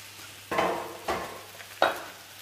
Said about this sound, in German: kannst du eigentlich den Spinat ansetzen, oder? Gerne. Und zwar nehmen wir uns dafür den Wok daher.